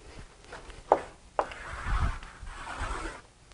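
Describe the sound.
A diagram is drawn during a programming lecture. Scratchy rubbing strokes come in short bursts, broken by a couple of sharp taps, with no voices.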